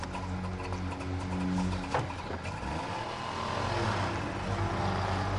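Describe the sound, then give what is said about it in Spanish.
Car engine rumbles low and steady as the vehicle stops at an entrance barrier in Hohenschönhausen, a continuous idling drone with a faint knock partway through and no voices. “detiene su coche ante la barrera de Hohenschönhausen. Baja la ventanilla y se dirige a un guardia.”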